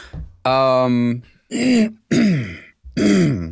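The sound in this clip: A person clears their throat of mucus, a series of four loud, rough, voiced rasps after a brief soft lead-in, the later ones sliding downward in pitch.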